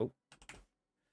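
A few faint, brief clicks from a computer keyboard, tapped quickly in a short cluster after a soft low thump, then silence.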